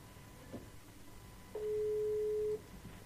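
Telephone ringing tone on an outgoing call: one steady, mid-pitched tone lasting about a second stands out over faint background hiss, with no voices.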